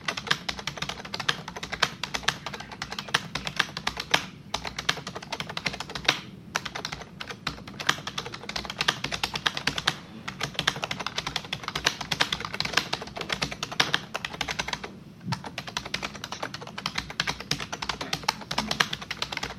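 Rapid typing on a computer keyboard while a text entry is written: a steady stream of light, dense key clicks runs without letup, with a few brief pauses and no voices.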